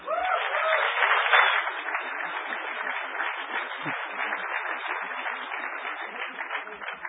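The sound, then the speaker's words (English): An audience applauds to welcome a presenter at a talk on copying high-security keys. The clapping is steady and dense, holding at an even level throughout. “All right. Give it up for Barry Wells.”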